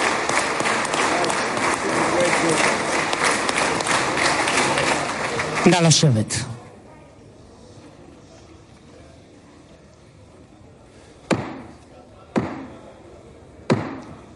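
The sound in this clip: Applause welcoming Donald Trump in the Knesset: dense, loud clapping that stops abruptly after about six seconds, followed by near quiet broken by three sharp knocks.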